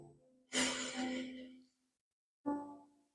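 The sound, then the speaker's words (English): Deep breathing during a Reiki meditation: a long, airy breath lasting about a second, a pause, then a second, shorter breath, both soft and alone. “Take a deep breath in”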